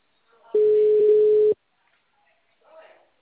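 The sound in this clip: A telephone rings on an outgoing call with a single steady, pure ringback tone lasting about a second, followed by near silence.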